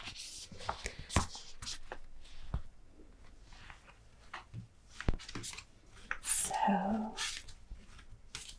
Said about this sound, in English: The cards of the Major Arcana. Let's just put these together again.